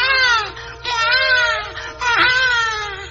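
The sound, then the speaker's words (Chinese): A baby cries in three loud, high wails with strong wavering harmonics, each separated by a brief catch of breath. “这个时阵，忽然间听到囡仔的哭声，”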